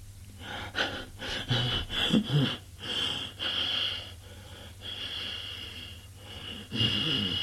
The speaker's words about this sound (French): Un râle étrange sort de sa gorge.